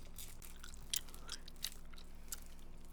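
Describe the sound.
Quiet, moist chewing of Haribo gummy candies, a continuous soft mastication broken by a few sharper bite clicks, with no talk.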